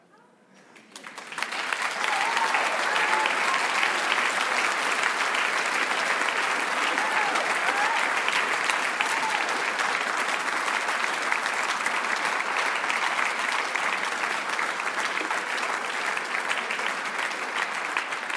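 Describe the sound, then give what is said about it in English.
A church audience applauds the announcement of a new lead pastor. The clapping swells quickly from near silence into a loud, dense, sustained round that holds steady for many seconds. “Hey, I don't get a clap like that. That's disgusting.”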